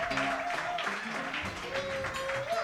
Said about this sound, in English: I certainly appreciate your applause.